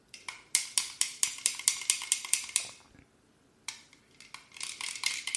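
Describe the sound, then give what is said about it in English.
A small spoon stirs a mixture, clinking against its container in a quick, steady run of many light taps. After a short pause the stirring resumes with softer, denser clinks. “Stir a little bit. It's totally homogeneous.”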